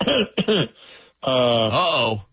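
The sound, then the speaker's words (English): A loud, gravelly throat clearing: a couple of short guttural bursts, then a longer voiced, rasping clear that wavers in pitch before stopping. “That's a significant throat clear.”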